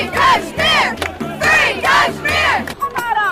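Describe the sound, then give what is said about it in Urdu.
Protesters at a demonstration chant slogans against India's prime minister Narendra Modi and in support of Kashmiris, many voices shouting in unison in loud rhythmic bursts, phrase after phrase with short gaps between. “اور جب بھارت کے وزیر اعظم نریندر مودی نے تقریر کرنا شروع کی تو ہزاروں کی تعداد میں مظاہرین ان کے خلاف اور کشمیریوں کے حق میں نعرے لگا رہے تھے۔”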